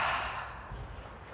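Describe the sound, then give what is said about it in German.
A deep breath released after a slow inhale through the nose in a guided breathing exercise: a soft, breathy exhale heard alone, starting strongest and fading over about a second. “Ein letztes Mal tief einatmen über die Nase und da alles loslassen, was du gerade nicht gebrauchen kannst.”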